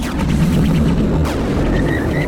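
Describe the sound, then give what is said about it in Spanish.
A magical sword-stroke sound effect closing a portal: a loud, dense roaring rumble with bursts of crackling noise that holds steady throughout, ending with a faint, thin high tone. “Me lo cierra usted, por favor, Sir Arthur. Sí. Aplique la magia. Vamos allá. Con un mandoble de mi espada.”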